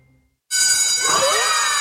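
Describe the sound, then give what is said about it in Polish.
A school bell signalling the start of a lesson rings out suddenly after a short silence, a loud, steady metallic trill with bright high overtones that holds for over a second. “Wszystko, co dobre, zaczyna się od dzwonka na lekcję.”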